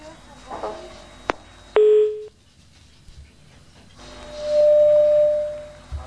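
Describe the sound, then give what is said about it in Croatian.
Telephone line tones as a call comes in: a sharp click, then a short steady tone, a quiet gap, and a longer, higher steady tone that holds for about two seconds. “Imamo novi poziv.”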